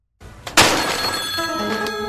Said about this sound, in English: As they established in that hilarious joke earlier, the phone is dead, so it can't ring. However, it does, and it sounds like this.